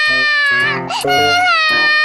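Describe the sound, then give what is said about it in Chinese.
A small child cries at nap time, a loud sustained wailing sob with a wavering pitch, breaking briefly in the middle before resuming strongly. “你看，又被你弄哭了。”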